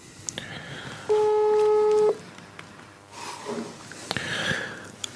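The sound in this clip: A telephone tone as a call is being placed: a single steady electronic beep lasting about a second, set against faint background noise.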